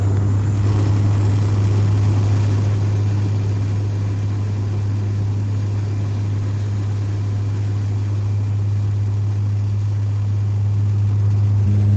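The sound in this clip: Steady airplane engine drone on a flight from Entebbe, Uganda, to Kigali, Rwanda: a continuous, even roar with a strong low hum underneath, holding level throughout with no breaks.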